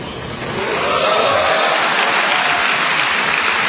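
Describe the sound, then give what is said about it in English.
Cheering and applause from a crowd of more than 2,300 mostly National Guard and Reserve soldiers: a broad, roaring wash of noise that swells during the first second and then holds steady and loud, with no single voice standing out. “After the cheering from more than 2,300 mostly National Guard and Reserve soldiers died down”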